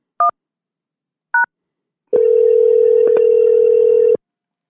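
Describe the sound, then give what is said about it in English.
Telephone line tones: two short keypad beeps spaced about a second apart, followed by a steady, loud electronic tone holding for around two seconds before cutting off. “If you know your party's extension, you may dial it.”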